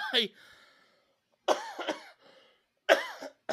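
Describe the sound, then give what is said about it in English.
Harsh, throaty coughs from one person in short separate bursts, each a rasping hack that trails off into a brief quiet pause before the next. “I would normally hit the cough button, but I want you to understand that's part of the experience here.”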